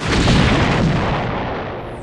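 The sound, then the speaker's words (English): An energy beam fired from a planet strikes a starship's shields in an audio drama effect: a single loud, deep, rumbling blast that hits at once and slowly fades over about two seconds. “Admiral, sudden buildup of energy from the planet. It's firing some kind of beam at us. Shields, brace for impact.”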